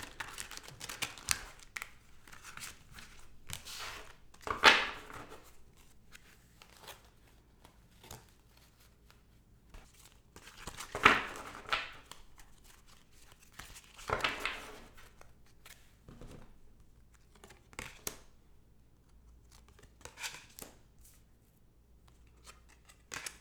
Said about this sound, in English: I'm just gonna do a 3-card pull and see what questions come up in the cards. And I'm using my beloved Cosmic Slumber Tarot deck.